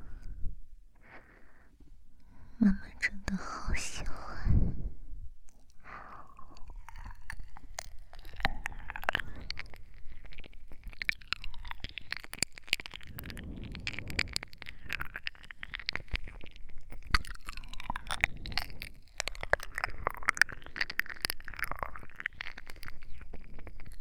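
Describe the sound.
Intimate ear-eating ASMR mouth sounds: continuous wet licking, smacking and clicking right at the microphone, dense irregular crackles and soft slurps running for the whole stretch with no voice.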